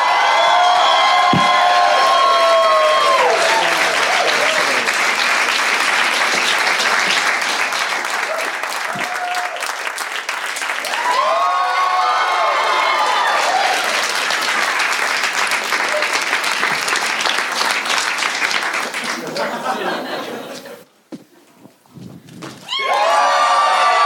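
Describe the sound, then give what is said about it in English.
Sustained, loud audience applause with cheering welcomes a comedy headliner to the stage, a dense steady roar of clapping lasting about twenty seconds before briefly dropping away and then rising again at the end. “are you guys ready to see your headliner? Clap it up right now.”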